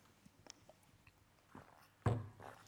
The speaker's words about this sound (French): Gorgée d'eau.